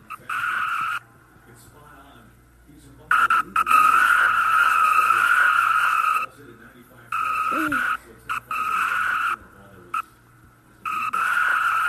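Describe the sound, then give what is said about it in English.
Stock car crash in a racing video game's Virginia 500 cup race: loud bursts of screeching tyres and engine noise, broken repeatedly by abrupt near-silent gaps. “Whoa! Big crash, and the caution comes out again.”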